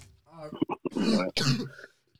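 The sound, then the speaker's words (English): Coughing and throat clearing from someone with a sore throat: a few short, sharp bursts followed by two longer, rasping clearings that trail off into quiet. “With this coughing in the background.”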